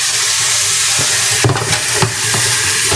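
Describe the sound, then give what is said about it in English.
Water running loudly into a sink while hands are rinsed under it. A steady, loud, broad hiss continues throughout, broken by a few soft knocks and splashes. “Now we're going to put that in the sink. Some got on my hands, so we're just washing it off.”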